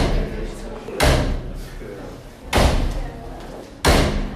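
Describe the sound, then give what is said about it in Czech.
A dressing room door bangs shut three times backstage at the Charming Personality of the Year awards in Hradec Králové. The three sharp, heavy slams are spaced over a few seconds above a constant, noisy background. “Tak takhle bouchají dveře od čatny Mekyho Žbírky. Pořád tam někdo chodí, zase vychází, dolaďují se detaily, ale my počkáme.”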